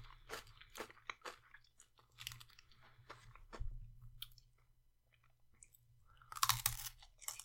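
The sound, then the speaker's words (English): Crunchy chomping and chewing on an ice cream cone, with many sharp, brittle crackles from the biting and munching. The crunches come in irregular bursts, with a loud cluster near the end and no talking. “That was a good chomp. And took all the cone.”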